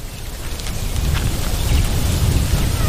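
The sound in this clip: Rain pours with thunder over a garden, a dense steady hiss of falling water laid over a deep, continuous low rumble that swells slightly louder partway through.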